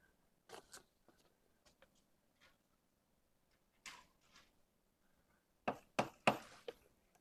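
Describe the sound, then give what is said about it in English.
Chalk or marker strokes scratch across a board while rules of an algebra are written out in a lecture, short faint scrapes in scattered clusters with quiet pauses, the busiest run near the end. “And the rules that I'm going to write down now.”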